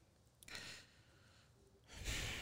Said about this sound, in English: Oh, he took a deep breath.